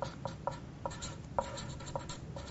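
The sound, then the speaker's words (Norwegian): A pen scratches on paper while drawing a ladder during a coaching session, with a series of short, crisp strokes at an uneven rhythm, fairly quiet and alone without talk. “så tegner jeg her en stige”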